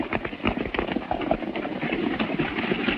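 A horse gallops along a trail in pursuit of other riders, its hoofbeats a rapid, steady stream of dense thuds that keeps an even, driving rhythm throughout.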